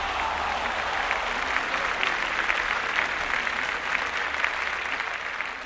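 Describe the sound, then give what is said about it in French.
A US Open tennis crowd applauds Serena Williams' win with sustained, moderately soft clapping that stays steady throughout, the dense patter of many hands forming an unbroken wash. “Et là, la voix de l'arbitre résonne dans le cours médusé Out C'est la délivrance pour Williams. Le public est en transe.”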